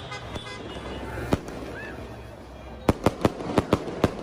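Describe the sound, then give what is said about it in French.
Fireworks explode over Marseille on the night of an OM win over Paris Saint-Germain: one sharp bang, then a rapid cluster of six cracks over a constant background hum. “Le 13 septembre 2020 au soir, un feu d'artifice explose dans le ciel de Marseille.”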